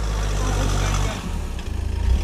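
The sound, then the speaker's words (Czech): A car bearing the volunteer firefighters' emblem from Píšť arrives at a church, its engine a low, steady rumble that dips briefly, then comes back in uneven pulses. “Ke kostelu právě přijíždí auto se znakem dobrovolných hasičů z Píště.”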